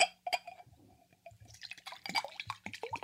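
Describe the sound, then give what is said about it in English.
Water being drunk makes faint, irregular liquid sounds, with soft drips and small gulping splashes that grow busier in the second half. No voices are heard. “let's stay hydrated and let's have some waters”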